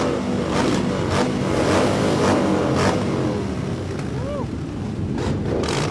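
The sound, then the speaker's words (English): Motorbikes ride through a saloon bar during a record attempt with 127 bikes, their engines making a continuous loud roar with repeated revving surges throughout. “I'm out here at the back of Bojangles Saloon Bar, where the world record attempt for 127 motorbikes through a bar is being attempted right now”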